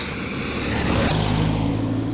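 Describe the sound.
Cars drive past on a road, a steady broad rush of tyre and engine noise that swells slightly midway and stays fairly even, with no voices.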